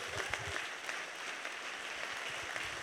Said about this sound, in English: So please put your hands together and welcome Lucy Pepiat.